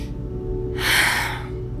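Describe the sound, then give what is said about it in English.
A person takes a single deep breath, an airy, breathy inhale that swells and then fades over a steady low hum. “I climb to my feet and take a deep breath”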